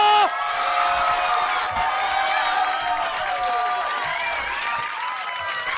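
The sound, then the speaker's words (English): A comedy show audience cheers and applauds as a comedian is introduced, with dense clapping, whoops and shouting voices rising in a loud, sustained roar that holds throughout. “Originally from Northwest Indiana, make some fucking noise for Marty DeRosa!”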